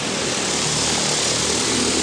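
A logistics delivery drone flies with a loud, steady whirring roar of its rotors, a dense, even noise that holds constant throughout.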